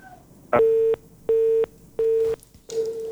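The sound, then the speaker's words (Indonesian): A telephone busy tone sounds after a call-in caller's line drops: four evenly spaced, mid-pitched beeps, each about half a second long with short gaps, steady and fairly loud over faint hiss. “nampaknya Pak Muhlis juga terputus untuk teleponnya”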